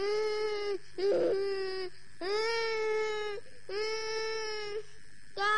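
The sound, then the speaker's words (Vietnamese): A child crying in long, drawn-out wails, about five high, tonal sobs separated by brief breaths, loud and steady in pitch with no talk over them. “Thôi, đừng khóc con.”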